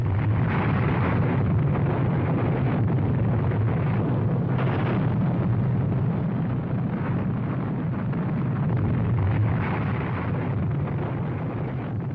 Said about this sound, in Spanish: Fatman es arrojada sobre el importante puerto militar de Nagasaki. La bomba de plutonio es aún más potente.